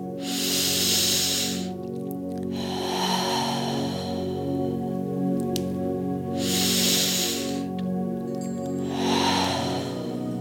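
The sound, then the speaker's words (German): Slow, deep breaths taken during a guided meditation: long, airy rushes of breathing in and out swell and fade over a soft, steady musical drone, with no voice. “Nimm noch 3 ganz tiefe Atemzüge.”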